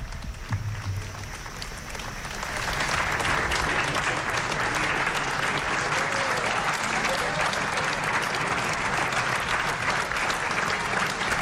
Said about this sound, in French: Voilà qui arrive sous des applaudissements clairsemés